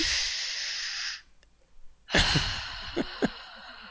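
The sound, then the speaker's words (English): A deep breath taken to calm down after a rant: a long, loud, airy rush of breath, then a near-silent pause and another breathy burst with a few short clicks and puffs. “I'm going to take a deep breath and calm down.”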